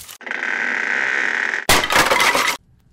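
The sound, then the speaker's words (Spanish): A tree branch falling and smashing a chair: a steady, sustained noise for over a second, then a loud, noisy crash lasting under a second before silence. “Esa rama cayó y destrozó la silla donde yo estaba.”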